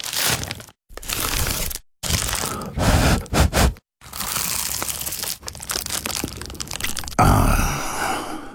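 Loud, crisp crunching as someone bites into an award-winning pie, with several sharp bursts of crackling pastry separated by short silences. Longer stretches of crumbling, crinkling chewing follow.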